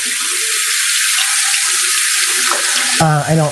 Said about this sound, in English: I put my spoons in the sink, so we're just going to go ahead and wash it